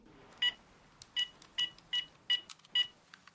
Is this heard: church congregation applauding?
no